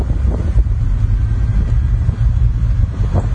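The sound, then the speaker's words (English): Steady low rumble of a car engine running after a gear shift, a dense continuous drone that stays even in loudness throughout. “You see that gear stick? Okay. Shift it. Oh, okay, well, okay, that fixed it.”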